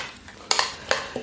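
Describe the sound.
A utensil stirs baby spinach through a dish, with a few light, sharp clinks and scrapes over a soft, steady hiss.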